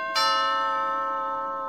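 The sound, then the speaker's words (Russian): A doorbell rings once with a single bright, bell-like ding that strikes sharply, then hangs in the air and fades slowly and steadily, with nothing else heard. “Он вернулся к себе на рабочее место и сейчас же позвонили в дверь.”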